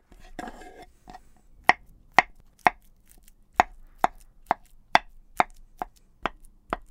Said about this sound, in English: We need the bananas. Okay. Peel them and slice them.